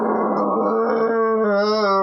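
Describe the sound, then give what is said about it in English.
An abominable snowman's monster roar on the ice: one loud, sustained growling howl with rich harmonics that fills the whole clip, alone with no talk. “And the abominable snowman lets out another roar.”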